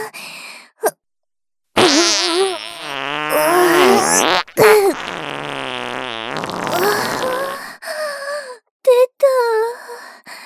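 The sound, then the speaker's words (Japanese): A big, long fart with wavering pitch comes after a short silence, followed by several shorter, broken bursts of the same sputtering sound. “でっかいおならぶっこいちゃったわ。おならで地面が揺れちゃったんじゃないかしら。”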